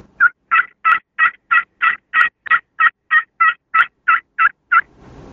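Raspy turkey yelps from a Scarlet Fever crystal friction call, a long, steady series of loud, evenly spaced notes with a rough edge, ending in a brief low rustle.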